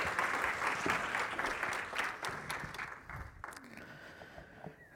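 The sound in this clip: Audience applause welcoming a speaker as he comes forward: dense, loud clapping that holds steady for about three seconds, then thins into scattered claps and fades.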